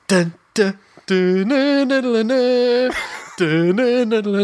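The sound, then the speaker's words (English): A voice imitates the Dolmio pasta sauce advert jingle, singing a few short staccato "dun" syllables that give way to longer sustained sung notes, loud and alone with brief gaps between phrases. “and I instantly fucking knew that that was the sound of the Dolmio ad.”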